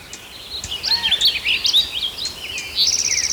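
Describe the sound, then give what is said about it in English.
Many birds chirp and sing, with quick high calls overlapping at an irregular rhythm over a constant soft background hiss; no one talks. “A lot of background noise out of birds.”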